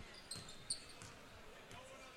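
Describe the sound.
Basketball dribbled slowly at the top of the court in the closing seconds of a boys' high school game, Marysville at Northern: a few faint, spaced bounces under a low background murmur.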